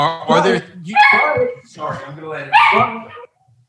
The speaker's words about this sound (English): sorry, that's my dog